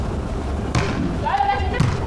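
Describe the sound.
A beach volleyball serve struck during a match involving Hangzhou city's first team, heard as a sharp hand-on-ball thump followed by a second impact, under talk.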